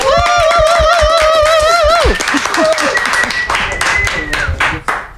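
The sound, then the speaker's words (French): Audience clapping to welcome a performer at a live event: sharp claps beneath a sustained voice at first, then louder, scattered clapping with voices mixed in. “On te fait un tonnerre d'applaudissements et de soutien avant.”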